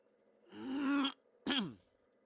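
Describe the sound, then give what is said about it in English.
Throat clearing in two voiced, rasping bursts, a longer one followed by a shorter one whose pitch drops, heard alone and fairly loud. “I hope that mute button worked as I cleared my throat.”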